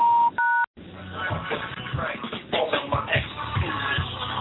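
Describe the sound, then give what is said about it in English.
Telephone keypad tones entering a host ID on a conference call line: a brief steady beep, then one clipped dual-tone key press, followed by a muffled, noisy, rustling stretch. “Please enter your host ID followed by the pound sign.”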